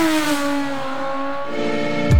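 A motorcycle engine revs in a tire advertisement, giving a loud, steady buzzing whine whose pitch sags slightly before a short burst at the end.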